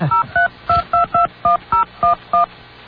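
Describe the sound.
Touch-tone telephone dialing: a rapid series of about ten short, bright two-tone beeps punched out in an uneven rhythm as a phone number is entered, with no voices.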